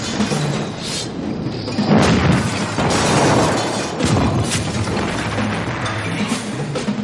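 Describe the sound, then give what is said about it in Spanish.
Heavy stone crashes as the giant white queen smashes chess pieces in the wizard's chess battle from Harry Potter and the Philosopher's Stone (2001). Dense, rumbling impacts run throughout, with a few louder crashes standing out near the middle. “La reina blanca destroza a un alfil. Poco después destroza a una torre.”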